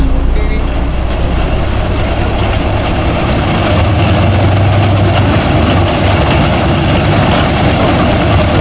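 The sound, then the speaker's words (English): Vimy engines running in a loud, steady, low droning roar with a dense rumble that holds constant throughout, with no talk over it. “Sound of the Vimy engines there”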